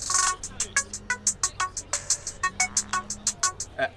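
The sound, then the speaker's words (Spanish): A telephone ringtone plays in short, regular electronic pulses, a brisk run of bright beeps over a low sustained tone that sounds twice, with no talk. “Disculpen, tengo una llamada...”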